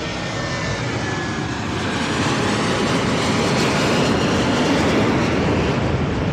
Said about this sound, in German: Jetzt fliegt gerade ein sehr schön gestreiftes Flugzeug über uns.